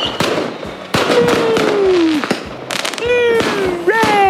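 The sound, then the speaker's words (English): Fireworks at a show crackle and bang in a dense, loud barrage, with whistling rockets whose shrill tones glide downward over the continuous popping. “It's the sound of the fireworks.”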